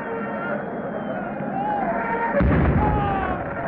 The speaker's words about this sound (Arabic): هكذا بدأت احتفالات الشعب بعيد النصر. طلقت المدافع تحيي موكب الشعلة